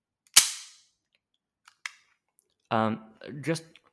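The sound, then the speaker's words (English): A single loud, sharp click from a black Walther PPK pistol held about 1.5 inches from a microphone, with a quick decaying tail. A couple of faint ticks follow, then people talk. “So that click was while that gun... was about 1.5 inches away”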